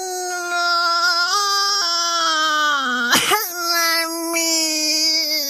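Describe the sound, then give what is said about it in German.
A voice imitates a baby elephant sobbing with a sustained, high, wavering wail that steps up and down in pitch. A brief, sharp sob breaks it in the middle. “schluchzt der Elefant los”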